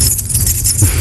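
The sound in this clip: Keys jangling in a short, loud metallic burst of bright, overlapping chinks that lasts about a second.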